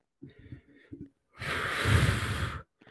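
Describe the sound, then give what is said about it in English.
A person takes a deep breath, a long, loud breathy rush lasting over a second, preceded by softer low breathy sounds. “We're gonna stand up. Yeah, I'm, standing up. I'm standing up. I'm bringing the energy up. Take a deep breath.”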